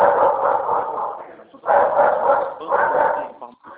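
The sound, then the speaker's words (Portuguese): Dog barking during a phone call, heard muffled and narrow through the line in a few bursts, mixed with a person talking. “a ligação está horrível, o cachorro latindo”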